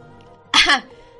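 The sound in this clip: A single short, dry cough from a woman, abrupt and rough, standing alone against a faint steady background hum.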